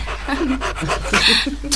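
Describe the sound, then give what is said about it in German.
A dog pants and whimpers after being given a pink fizzy sweet. Quick, rhythmic breathy pants run throughout, with high whining notes over them. “wenn ich es nicht besser wüsste, würde ich glauben, der Hund hat die Tollwut”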